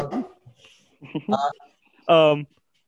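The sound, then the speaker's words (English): A pet dog gives one loud, short, tonal bark or yelp near the end, after a few fainter short sounds. “oops, sorry, that's my dog.”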